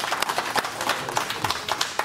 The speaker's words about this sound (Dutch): Geef hem een verdiend applaus.